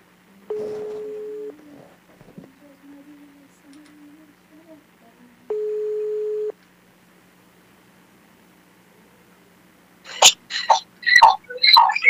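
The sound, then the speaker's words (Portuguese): Telephone line tones while a listener is being called: two steady, low, humming tones about a second each, several seconds apart, with faint sounds between them, then voices begin talking near the end. “Vamos ligar aqui para a ouvinte, se ela está antenada, está ligada na programação.”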